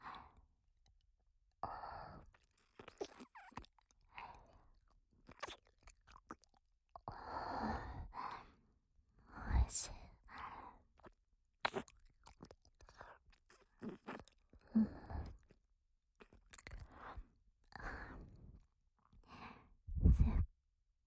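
Wet licking and mouth sounds move around the ears, heard as many soft, irregular smacks and slurps with occasional breathy sighs between them, alone and without talk.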